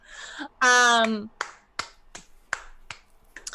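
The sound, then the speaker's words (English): Fingers snap as applause in a run of crisp, sharp snaps at a fairly even pace. A brief voiced sound comes just before the snapping starts. “You normally don't say things right out front, so I want to applaud this moment.”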